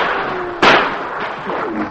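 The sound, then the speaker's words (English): A single sharp gunshot from a radio drama shootout, where gang members fire at troopers; a sudden loud bang cuts through steady background noise, then fades. “Rock Gordon and his men knew their plan had failed, but for a few moments they continued to fire at the troopers.”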